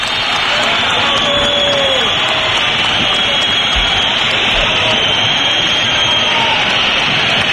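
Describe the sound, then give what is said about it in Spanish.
Stadium crowd whistling in protest at full time of an Atlético football match: a loud, dense, unbroken wall of shrill whistles and crowd noise that holds steady throughout. “Fuerte pitada, no, fuerte pitada. Está claro, sí, sí. Los que han aguantado ha sido para mostrar su desacuerdo con el partido que han visto”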